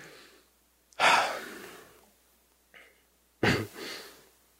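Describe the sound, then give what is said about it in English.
Deep breaths, heard alone with no talk: two loud, airy rushes of breath separated by quiet, the second ending in a softer trailing exhale. “Okay, take a deep breath with me.”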